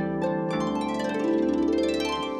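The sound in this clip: A frog croaks in a ravine, a continuous, rasping, richly harmonic call that carries on without a break for a couple of seconds.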